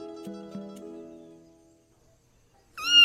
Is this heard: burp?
no

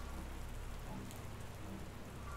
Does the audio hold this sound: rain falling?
yes

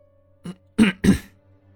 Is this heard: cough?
yes

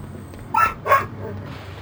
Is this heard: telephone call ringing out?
no

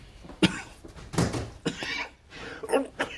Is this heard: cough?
yes

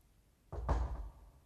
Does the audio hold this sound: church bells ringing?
no

